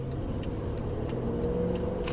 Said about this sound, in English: For legal reasons, I wasn't allowed to sit behind the wheel, so Mercedes engineer Jens Dessens took me for a drive.